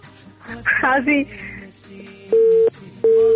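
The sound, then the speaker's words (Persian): A telephone busy tone sounds after a dropped call, as two loud, steady mid-pitched beeps with a gap between them follow a brief voice. “خب تماس دوست ما قطع شد”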